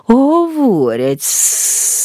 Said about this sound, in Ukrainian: сказала змія, намагаючись пом'якшити своє шипіння